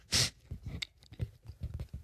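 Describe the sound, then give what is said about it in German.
Soft, irregular chewing of donuts, including Nutella-chocolate and Bavarian cream filled ones, as people eat. A single sharper burst comes near the start, followed by faint, uneven mouth sounds and a few small bites. “sorry, falls es irgendwie komisch klingt, wir essen Donuts.”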